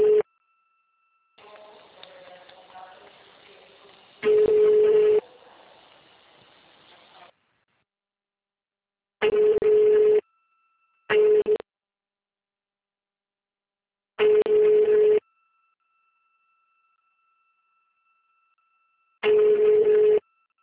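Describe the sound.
Telephone call tones ending in a busy signal on a Portuguese-language line: after a quieter stretch of line noise, five bursts of steady mid-pitched tone, each about a second long, separated by silence.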